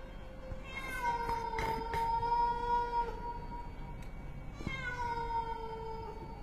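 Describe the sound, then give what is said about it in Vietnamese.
A stray cat yowls on a tiled roof with two long, drawn-out wailing calls at a steady mid pitch, the second following a short gap. Both are fairly quiet, with no voices. “Bất chợt đâu đó vọng lại những âm thanh như con mèo hoang đang kêu ở trên mái ngói, nghe thoáng qua giống như là tiếng trẻ con khóc não nùng.”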